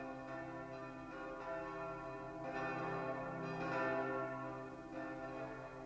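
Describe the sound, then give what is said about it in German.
Church bells ring in the New Year on a night in Strasbourg in 1435, a faint, continuous wash of overlapping tolls with a steady, ringing hum that swells slightly midway. “Die Glocken läuten das alte Jahr aus und das neue ein.”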